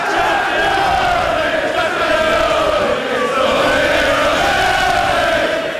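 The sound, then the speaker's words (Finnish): Football fans roar and shout in a London bar as the league title is won, a dense, loud and unbroken wall of crowd cheering and yelling voices. “Ja tältä meno kuulosti lontoolaisessa baarissa, kun pitkään odotettu mestaruus ratkesi.”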